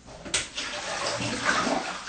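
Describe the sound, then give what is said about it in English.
Salad is rinsed under running water, making a steady rushing splash with a brief louder spatter near the start. The flow stays continuous and fairly soft. “Take the salad out, wash it back out of water, and rinse it well, 2-3 times, just to make sure.”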